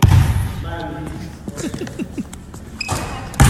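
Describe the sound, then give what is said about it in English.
After a made basketball jump shot, onlookers let out rising 'ooh' cries in a quick, loud burst of excited voices. “If you can't tell by the ooh, he made the shot.”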